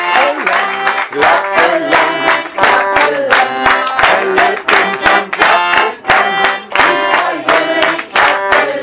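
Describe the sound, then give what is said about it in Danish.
Audience clapping in steady rhythm along with music, sharp claps recurring at regular intervals throughout, loud over sustained instrumental tones. “Og hvis I er enige med mig, så klapper vi af det.”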